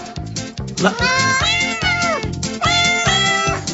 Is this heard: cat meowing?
yes